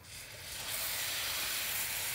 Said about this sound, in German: Und da kommt jetzt dann, wenn das aufgelöst ist, die warm gemachte Sahne dazu. Nicht erschrecken, es könnte gleich ein bisschen zischen.